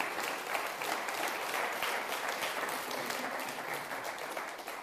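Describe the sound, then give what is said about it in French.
A church audience applauding, with steady dense clapping that holds at an even level throughout and no distinct voices above it. “Est-ce qu'on peut acclamer le Seigneur, notre Dieu?”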